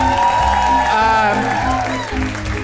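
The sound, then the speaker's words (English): A studio audience applauds game show contestants with steady, dense clapping from start to finish. Voices and cheering rise over the clapping. “All winners in my book. Give it up for our contestants.”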